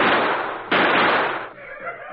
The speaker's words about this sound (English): You open fire? We're going to fire at the ground near the feet of the chief. Here goes.